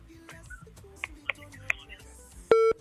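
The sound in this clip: Telephone call tones sound as a phone-in call connects: a few short, faint beeps spaced over a quiet background, then a louder sustained beep tone that holds briefly before cutting off.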